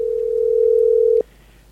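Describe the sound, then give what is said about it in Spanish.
A telephone dial tone plays during a call attempt, one steady, unbroken mid-pitched hum that holds for just over a second and then cuts off abruptly, leaving near silence. “Estamos intentando hablar con Rolex.”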